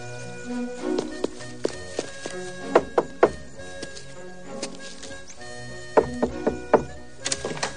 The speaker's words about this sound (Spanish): corre hacia la puerta cargando con la bolsa de las provisiones. Cuando llega, llama.